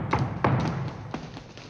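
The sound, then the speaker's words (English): Knocking on a door in a radio drama, a few hollow thuds and taps in an uneven pattern, moderately loud and heard alone with no talk. “Someone is knocking on the door.”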